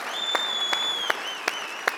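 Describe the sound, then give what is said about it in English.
Audience cheering and applauding, a steady wash of clapping in which a few sharper, louder claps stand out at fairly regular intervals. “Amen. You can cheer for that.”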